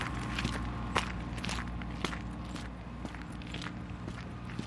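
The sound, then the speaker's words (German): Footsteps of someone walking on the way to a zoo on a sunny winter day: a steady run of many soft, even treads, with no talk over them. “Ein sonniger Wintertag in Schönbrunn. Auf dem Weg zum Tiergarten.”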